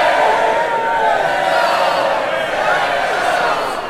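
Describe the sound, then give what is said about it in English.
A crowd roars for a wrestler's entrance at a fantasy wrestling match, a loud, sustained wall of shouting voices with whoop-like cries rising out of it, fading slightly near the end. “It's Diamond Head! Oh. The crowd roars.”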